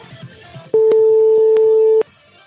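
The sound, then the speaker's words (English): A telephone keypad tone is dialed while placing a prank call to a fast-food restaurant: a loud, steady, dual-pitched beep holds for over a second, with a few faint clicks and quiet murmur around it. “Oh, it's so easy to dial these.”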